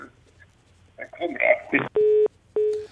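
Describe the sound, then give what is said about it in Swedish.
A phone-in call drops: a voice speaks briefly, then two steady electronic beeps of a disconnected-line tone sound alone, each about a third of a second and evenly spaced. “Då tappar vi det samtalet”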